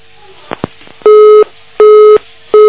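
Telephone busy tone after a caller hangs up: two short soft clicks, then three loud, steady, evenly spaced beeps, the last one cut off.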